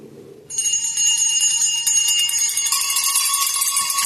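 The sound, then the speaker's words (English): Every bell in a house ringing at once: a sudden, loud, continuous jangle of high metallic ringing that starts abruptly and grows fuller as more bells join in. “Every bell in the house must be ringing.”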